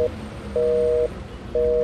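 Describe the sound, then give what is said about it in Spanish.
A telephone busy signal on a call line: a steady mid-pitched tone beeping on and off in even half-second pulses, two full beeps between the clipped edges of others. “Disculpe, ¿el teléfono está malo? No, no, ¿qué va? Pero qué raro. ¿Por qué me da ocupado?”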